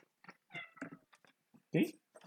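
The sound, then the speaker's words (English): A cat meows once, a loud, short cry near the end, amid scattered quieter sounds. “I hope everyone can hear the kitty meowing in the background.”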